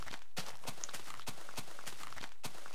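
Running footsteps in a video game: a steady rhythm of many quick, soft thuds over continuous background noise.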